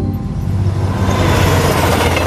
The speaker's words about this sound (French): Un avion cargo de l'armée française survole le TGV qui vient de passer la barre symbolique des 331 km/h.